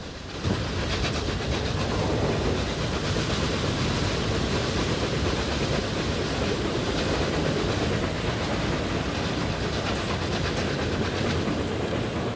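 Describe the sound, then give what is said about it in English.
A train runs steadily, its loud continuous rumble and rattling clatter filling the whole stretch without pause, heard by a rider leaning from a carriage window behind a black locomotive. “The train passes under two bridges in quick succession.”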